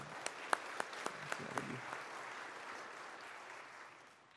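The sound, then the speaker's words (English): Audience applause opens with a handful of sharp, distinct claps over a wash of clapping, then thins and gradually fades out by the end. “And let's give a round of applause.”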